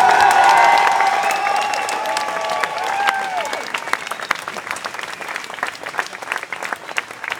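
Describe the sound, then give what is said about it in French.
Sustained applause from a crowd gathered to support activists on trial: dense, steady clapping with voiced cheering over the first few seconds that fades, leaving clapping alone. “On peut vous applaudir.”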